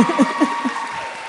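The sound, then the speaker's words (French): Audience applauding performers after a comedy sketch on stage, a brief wash of clapping with a voice speaking over it. “On peut les applaudir.”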